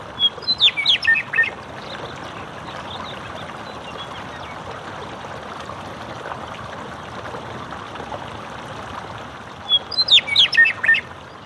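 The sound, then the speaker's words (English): Meadowlark song beside a thermal hot springs runoff channel: two bright, warbling bursts of quick fluting notes, one at the start and one near the end, over a steady rushing of flowing water. “And there was a meadowlark who flew in and just perched very close to me and the microphone and just sang his heart out.”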